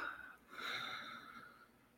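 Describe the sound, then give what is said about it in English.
A deep breath drawn in and let out during a seated relaxation exercise, a faint, airy, breathy rush that rises and then gradually fades, heard alone. “Take a nice deep breath in and let it go.”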